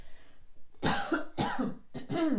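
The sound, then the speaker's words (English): Harsh coughing from a person choking on a drink: a few loud, raspy bursts with strained voicing in quick succession, each breaking out of near silence. “Girl, why do I choke every time? I mean, listen to my voice, really?”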